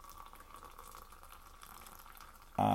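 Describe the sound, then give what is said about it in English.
Water poured into a French press to brew coffee: a faint, steady watery hiss, then a sudden loud, full gush right at the end. “So I'll just pour my 250 milliliters at once.”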